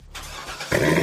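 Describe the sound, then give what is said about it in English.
A Chevrolet Corvette sports car engine revving: a short burst of engine noise that catches and then jumps louder and fuller partway through, holding a rough, buzzing roar to the end. “You hear that? That's the sound of America's only sports car. That's right. It's a Corvette.”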